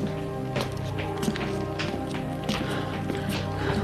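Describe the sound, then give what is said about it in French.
Quick running footsteps climbing a staircase to the top floor, a series of light, uneven thuds partly masked by a steady low droning hum that runs throughout. “Vite, elle monte jusqu'au dernier étage.”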